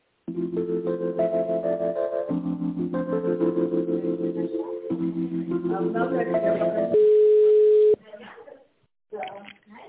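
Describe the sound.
Hold music on a telephone line during a call transfer, a thin, band-limited melodic tune followed by a single steady tone lasting about a second, after which a voice starts speaking.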